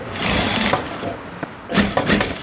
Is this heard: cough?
no